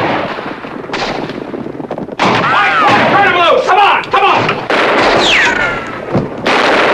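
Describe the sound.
Gunfire in a Western shootout as outlaws fight off a band of Mexican bandits: a few loud, sharp shots crack out at irregular moments, with shouting voices in between.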